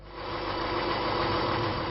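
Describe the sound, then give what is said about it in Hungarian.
A steady engine drone comes from a small red railcar running between towns in Baranya, Hungary. It swells slightly at the start, then holds an even, rumbling tone. “Két óránként jár ez a motorvonat Baranyában, Komló és Godisa között.”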